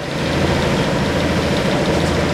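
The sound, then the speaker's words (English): A dredging boat on the Mekong River pumps sand into a barge about ten yards from shore: a steady, loud, low engine rumble with a continuous vibrating drone and no change throughout. “That's a boat pumping sand into a barge on the Mekong, just 10 yards away from shore in front of the Kadai Takoi Temple complex.”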